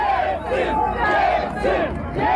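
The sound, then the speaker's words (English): A crowd of supporters cheering in a Moscow street during a coup attempt, loud massed voices shouting in a rhythmic, chant-like pattern that swells and recedes in repeated waves. “In the streets, his supporters cheered him on.”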